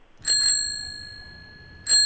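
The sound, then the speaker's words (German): A bicycle bell rings twice, a bright metallic ding at the start and another near the end, with the first ring's high tone hanging on between them, loud and clear with no voices. “Eine Fahrradklingel.”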